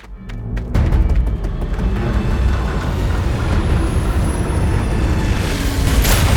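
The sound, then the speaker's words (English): A ship lands with a loud, dense roar and deep rumble that surges in after a brief quieter lead-in. The sound then continues without letup to the end, like heavy engines or thrusters. “The first ship has landed, and the second is close behind!”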